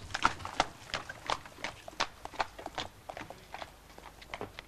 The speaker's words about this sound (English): Holmes and Watson arrive at the small station by trap.